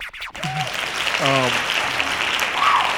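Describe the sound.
Hand clapping and applause from a small audience, a dense burst of claps with speaking voices over it throughout.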